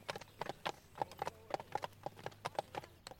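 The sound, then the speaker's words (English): Hooves clip-clop as three horses ride out one behind the other, making a steady, rhythmic run of many sharp hoofbeats with a faint low hum underneath. “The three young men ride out.”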